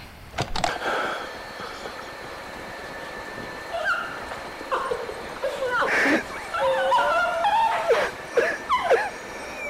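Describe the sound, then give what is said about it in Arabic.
A dog whimpers and yips on an old tape recording, with a series of high, wavering whines that rise and fall, brief sharp yelps, and steady tape hiss underneath. “والدليل على ذلك انه كلبها سومي لسه معاه هتسمع صوته على الشريط خلونا نسمع”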